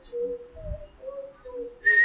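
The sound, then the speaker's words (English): A boy whistles a few soft, wavering mid-pitched notes with short gaps between them, then a sharper, higher whistled tone at the end. “He blew and blew and blew. Suddenly, out came a whistle.”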